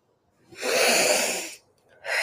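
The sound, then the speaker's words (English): A deep breath: one long, airy inhale of about a second that swells and fades, alone with no talk. The start of a second breath follows just after it. “Deep breath.”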